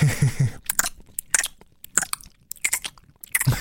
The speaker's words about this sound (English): Let's have a little taste test. Do a bit of ASMR.